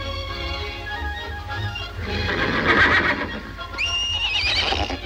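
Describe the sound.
A horse whinnies as a foal rejoins its mare on a ranch. Loud, wavering high-pitched neighs rise and shake over a steady low hum.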